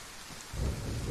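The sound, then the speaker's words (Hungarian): Thunder in a video game rumbles under steady rain: a soft hiss of falling rain runs alone for the first half, then a deep, heavy roll of thunder swells in and holds to the end. “Megérkezett a dörgés. Ez tök jól meg van csinálva egyébként a játékban.”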